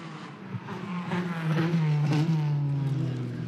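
A race car engine revs as the driver eases the clutch in. The engine note is loud and buzzing, dipping gradually and settling lower as the clutch bites.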